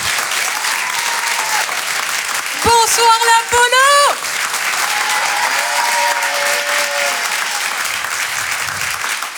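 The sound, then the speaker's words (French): Comedy club audience applauding a comedian arriving on stage, a dense, continuous wash of clapping that stays loud throughout while a voice briefly greets the crowd over it partway through. “Faites du bruit, s'il vous plaît,”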